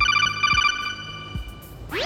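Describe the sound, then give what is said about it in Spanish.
A phone ringtone sounds for an incoming call: a bright, warbling electronic trill repeated in quick pulses, with two low thuds beneath it and a rising sweep at the end. “entonces recibí la llamada”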